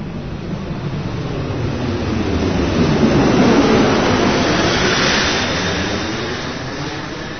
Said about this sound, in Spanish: Miren, el avión está aterrizando.